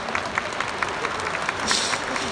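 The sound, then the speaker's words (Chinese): A crowd applauds at the end of the first day of the Comiket 107 fan convention, with dense, continuous clapping forming a loud, even wash of noise and a slight swell near the end. “我不知道大家听唔听声啦，拍手掌”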